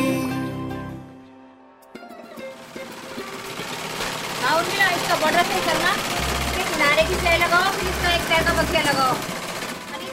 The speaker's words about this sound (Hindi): और ये है लिटरेसी इंडिया की सिलाई कार्यशाला